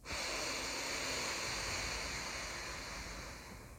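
Airy breathing through the right nostril during alternate nostril breathing, a steady rushing hiss that lasts a few seconds and then tapers off.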